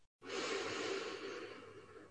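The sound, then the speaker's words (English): A slow, deep breath taken during a guided relaxation meditation: one long, soft, airy rush of breath that begins abruptly after a brief silence and holds steady for about two seconds before easing slightly, with no voices. “Taking a deep breath in,”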